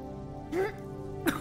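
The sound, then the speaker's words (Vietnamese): A woman coughs twice in quick succession while trying to muffle it, two short stifled bursts over a steady low background hum. “Cô gái ho sụ sụ mấy tiếng nhưng ráng che lại, gằn giọng:”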